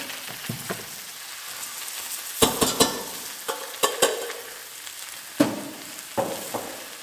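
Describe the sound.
Chopped parsley is stirred into a lightly frothed pan sauce, with a soft, continuous sizzle and many scattered clicks and scrapes of the utensil against the pan.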